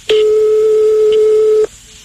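A telephone ringback tone sounds as a call is placed to someone's home. One loud, steady, pure tone holds for about a second and a half, then cuts off to near silence.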